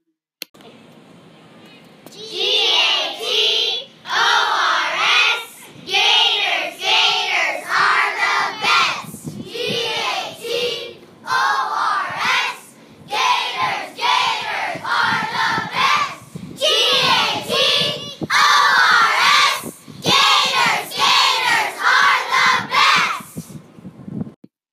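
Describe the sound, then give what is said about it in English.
Third-grade schoolchildren shout a school chant together: loud, rhythmic bursts of many young voices in unison, repeated in steady phrases with brief pauses between lines throughout. “That was a throwback to back to third grade's great chant.”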